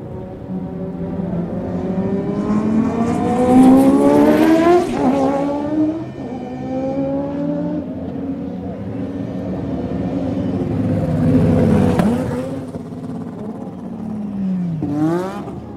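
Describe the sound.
Formula 1 race car leaving the pit lane, its high-revving engine whining loudly with rising pitch as it accelerates. The sound swells in two big surges and ends with a brief final burst.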